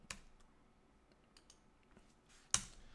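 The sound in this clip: Computer mouse clicks while editing a web page in the Stacks design software: two sharp, faint clicks, one at the start and one near the end, with only soft ticks between.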